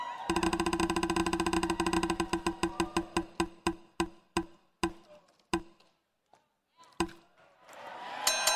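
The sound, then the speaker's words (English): Rapid ratcheting clicks from a prize wheel spun to pick a discussion topic, starting as a dense, fast run of ticks and steadily slowing to a few widely spaced clacks before stopping, with faint noise afterwards. “Let's spin the wheel.”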